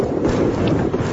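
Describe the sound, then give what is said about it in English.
A wind-driven, out-of-control bushfire burns in the western U.S. and Canada. It makes a dense, steady rushing roar with gusty buffeting, loud and unbroken throughout, with no voices. “That's the sound of just one of more than 100 wind-driven, out-of-control bushfires burning in the U.S. and Canada.”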